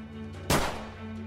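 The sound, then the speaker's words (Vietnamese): A single gunshot fired inside a closed house: one sharp, loud bang that dies away quickly over a steady low hum. “Tiếng súng chật chú vang lên trong ngôi nhà đóng cửa kín mít.”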